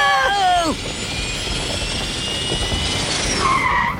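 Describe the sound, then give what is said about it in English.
Turbo thrusters fire up on a cartoon invention with a loud, steady rushing roar. Quick falling tones open the sound, and brighter wavering tones rise near its end. “Turbo thrusters, activate! Whoa!”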